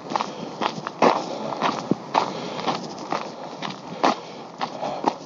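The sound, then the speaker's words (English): Footsteps of a runner slowing to a walk partway through a 10-kilometre training run: a steady series of soft, scuffing steps over a constant hiss of background noise. “I should take a little walk break here.”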